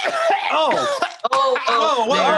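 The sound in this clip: Loud, harsh coughing with throat-clearing and groaning voiced tones. A short pause breaks the fit in the middle before the coughing resumes.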